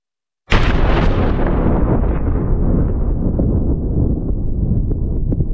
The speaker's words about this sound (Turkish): Bomba gibi patladı. Fabrika alev topuna döndü. Patlama anı böyle kaydedildi.